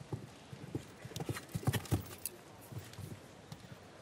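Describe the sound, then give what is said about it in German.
Hooves of a ten-year-old show-jumping horse clip-clop beneath its rider at an equestrian event, a faint, uneven run of many thudding steps with a few louder strikes near the middle. “Damals im Sattel von Monaco sitzt er hier auf Devino. 10 Jahre alt.”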